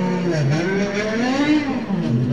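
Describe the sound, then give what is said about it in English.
A Ferrari 550-series race car on a racing circuit roars along at high revs, its engine note wavering up and down in pitch as it pulls through the gears, loud and alone. “Mafia coming through in the Ferrari 550 or 575 or 599 or whatever it is. About as far as you can go with a 500 and something series Ferrari.”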